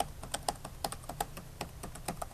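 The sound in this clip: Typing on a computer keyboard as an email address is entered: many quick, crisp keystrokes in an uneven rhythm, clear and alone with no voices.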